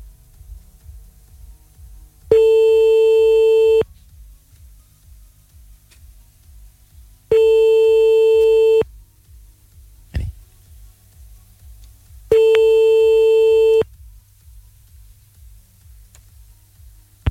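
Telephone ringback tone plays while a call is placed back. Three long steady tones at the same pitch sound at even intervals, separated by gaps of faint crackling line noise.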